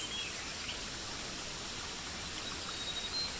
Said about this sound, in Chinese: 流水的声音包围着你